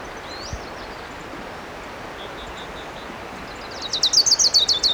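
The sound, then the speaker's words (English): An orange-crowned warbler singing, heard as a few faint high chirps early on, then a brighter rapid high-pitched trill of repeated notes near the end, over steady background hiss. “There's a warbler singing. It might be an orange crown.”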